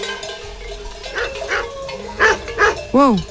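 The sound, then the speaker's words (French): Dog barking: a herding dog circling a group of people, letting out several short, tonal barks that grow louder toward the end over a low, steady background. “c'est le chien. Ignore-le.”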